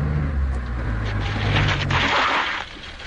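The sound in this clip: A car engine rumbles low and steady as it drives slowly up a drive with a sharp bend. The drone eases down and quietens near the end as the car comes to a stop.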